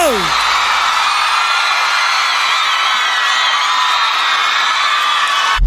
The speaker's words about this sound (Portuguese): salva de palmas pro Leonardo!